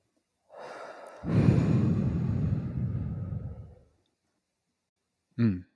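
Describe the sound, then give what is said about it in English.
A slow, deep breath during a guided breathing exercise: a soft inhale, then a long, loud, airy exhale lasting a few seconds, followed by a short voiced sound. “We'll breathe in for 4, hold it for 4, and then out for 4.”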